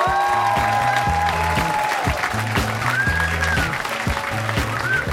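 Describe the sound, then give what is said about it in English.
Audience applause fills a live stage show, a continuous clatter of many hands laid over rhythmic music with repeating bass notes. “Another round of applause for Chris Hardwick, everybody.”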